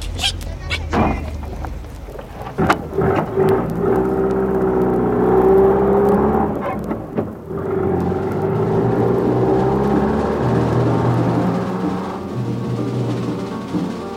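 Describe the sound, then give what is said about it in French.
A red and green taxi drives the road from Geneva toward Nyon in the rain at a good pace, its engine giving a steady, continuous whir and road hiss after a few brief knocks at the start. “Le taxi rouge et vert sort de Genève et prend la route de Nyon. Peu de voitures et le taxi marche à bonne allure malgré la pluie.”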